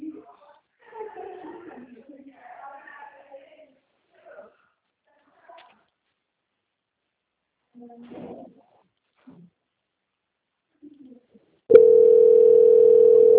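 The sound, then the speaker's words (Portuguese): A loud, steady, continuous telephone tone sounds for the final couple of seconds, after scattered stretches of quiet speech. “Tá tocando aí? Olha lá, ó. Tá vendo? Aí vai, quem quer atender? Alô?”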